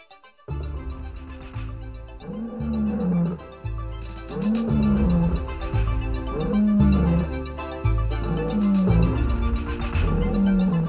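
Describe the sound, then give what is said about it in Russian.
Lions roaring in a lions' den, a sound effect of many deep, loud roars repeating one after another in a steady rhythm, with no talking. “приказал бросить Даниила в львиный ров.”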